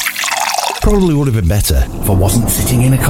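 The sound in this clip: A drink is briefly poured into a glass, a soft liquid splash lasting under a second, and then a man starts talking.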